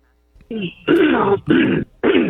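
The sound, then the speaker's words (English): Throat clearing in four rough, voiced bursts: a short first one, then three longer, loud, growling rasps with brief gaps between them. “Hey, hold on a minute with the throat clearing.”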